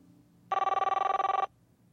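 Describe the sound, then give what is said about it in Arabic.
A telephone rings for an incoming call: a single bright, rapidly trilling electronic burst lasting about a second, clear and alone with no voices. “طيب معنا اتصال”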